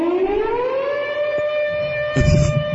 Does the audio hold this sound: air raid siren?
yes